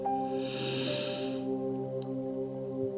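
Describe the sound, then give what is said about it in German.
A deep breath in during a guided meditation, a soft, airy inhalation lasting over a second, heard over steady, sustained droning music tones that continue after the breath ends. “Atme einmal ganz tief ein”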